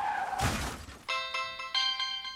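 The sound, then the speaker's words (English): A car crash after hitting a deer and skidding into a ditch: a loud crunching smash, then steady tonal ringing that pulses a few times. “Mom, I just hit a deer and went into the ditch.”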